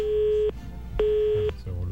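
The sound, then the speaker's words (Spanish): Telephone busy tone after a dropped phone call: steady half-second beeps with equal half-second gaps between them. Two full tones sound and a third begins. “Bueno, se nos cayó la llamada telefónica.”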